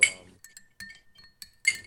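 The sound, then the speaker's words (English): A spoon clinks against a glass as demerara sugar is stirred into a drink, sounding as several bright, ringing taps at uneven intervals with a thin sustained tone lingering between them. “you need to stir it. And stir it pretty good. We've been talking, so it's probably mostly dissolved. I'm sure. The demerara really does take a while to dissolve”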